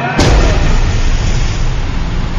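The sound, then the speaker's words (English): A test bomb barrel drops from a low-flying plane 150 feet above water: a loud, steady roar runs throughout, with a sharp burst near the start. “Flying 150 feet above the water, Arnie reaches the drop zone. Bombs away. Bomb gone.”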